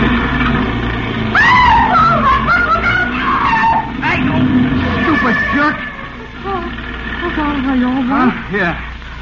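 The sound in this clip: Tires screech and an engine roars as a car swerves past in a near miss at a street corner, driven by a reckless driver. A wavering, shrill squeal rides over a low rumble for several seconds.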